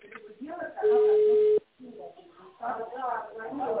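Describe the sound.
One steady, even ringback tone sounds while a call is placed to a company, a single held beep of under a second with people speaking before and after it.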